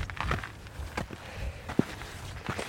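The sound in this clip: Footsteps of hikers walking up a steep mountain path on the last climb of Suilven in Assynt, northern Scotland: a few quiet, irregular steps, with no talking.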